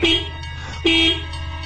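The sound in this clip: A motorcycle horn honks loudly twice with short, bright, steady tones separated by a brief pause.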